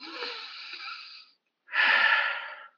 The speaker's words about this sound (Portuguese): Eu acabei de respirar e eu já polui.